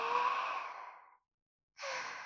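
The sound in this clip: A person takes a deep breath: a long, soft, airy breath lasting just over a second that fades out, then silence, then another breathy rush begins near the end.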